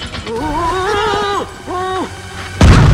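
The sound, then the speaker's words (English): A video-game explosion as a giant bomb boss blows up, a loud, sudden noisy burst at the very end, preceded by warbling synthetic tones that slide up and down in pitch. “King Bob-omb explodes, and Princess Peach loses her power.”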